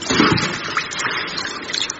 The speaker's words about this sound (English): Watch out for the tidal wave. She's getting in the pool.